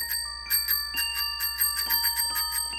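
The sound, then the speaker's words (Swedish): The little bell on a red tricycle rings in a quick, steady series of many bright, high, metallic dings, clear and alone. “a little bell that I can ring”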